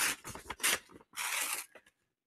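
Paper tears as envelope number three is opened, in a few short rasping bursts with brief pauses between them, then silence.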